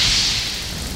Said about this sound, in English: Suddenly, there was thunder, and a flash of lightning hit a tree.